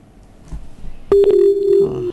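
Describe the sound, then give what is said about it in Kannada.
Telephone tone as a call is cut off: a steady electronic beep holds for about a second after faint line noise, then stops abruptly. “ಕರೆಯಲ್ಲಿ ಕಡಿತಾ ಆಯ್ತು.”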